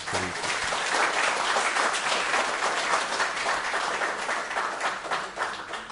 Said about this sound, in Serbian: Sad ću čitati ove manje angažovane, ove kratke iz prirode, pa ne morate mnogo pljeskati.